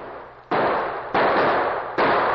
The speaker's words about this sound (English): they were suddenly startled by gunshots from the gully behind them.